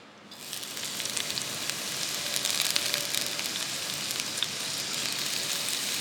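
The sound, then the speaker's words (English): Onion and garlic frying in a pot give a steady, bright sizzling hiss with scattered crackles and pops that build slightly over the first second and then run on evenly, with no talk. “So we've got the onion in the pot with some garlic.”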